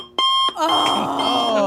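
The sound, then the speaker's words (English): An alarm clock going off: a short, loud electronic tone, then a steady, insistent ring that carries on at full volume to the end. “From my earliest memories, that alarm clock sound”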